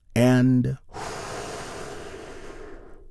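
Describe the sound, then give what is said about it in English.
A deep breath taken during a guided meditation: a brief voiced, tonal sound, then a long, steady, breathy exhale that slowly fades away. “Take another big, deep, healing breath with me right now. All together, here we go.”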